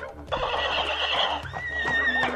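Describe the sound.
A horse neighs in one long, loud whinny with a high, wavering tone that trembles and shifts pitch before it fades out.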